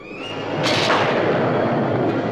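Raging storm effect in a dramatic scene, a sudden thunderous crash shortly after the start that gives way to a loud, sustained rumbling roar, with no voices.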